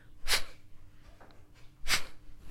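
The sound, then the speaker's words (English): Two sharp, forceful exhalations through the nose during fire-breath practice at a breathing workshop; brief, quiet bursts of airy hiss with a pause between them and soft breathing in the gaps. “Just like you would blow out from your nose, your stomach goes in. The same way, you're going to practice the fire breath”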